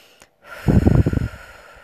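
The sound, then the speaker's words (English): A single long exhale during a guided breathing exercise: a rough, breathy rush of air with a low fluttering quality that lasts under a second and then fades. “Beginning to just exhale, long exhale breaths here. And short inhale.”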